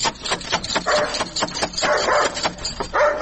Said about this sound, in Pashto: دا څه بد سپی لري